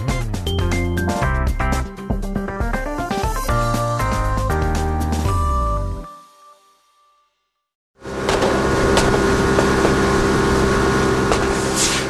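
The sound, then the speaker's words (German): Speedboat engines roar as police boats chase poachers through the narrow channels of the Volga delta near Astrakhan. A melodic music passage and a short silence come first, then a loud, steady engine roar with a droning tone. “Motoren heulen auf, Gewehre knattern, Schnellboote jagen durch die engen Kanäle.”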